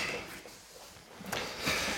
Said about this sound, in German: Wir öffnen hier gerade das äh, Pale Ale.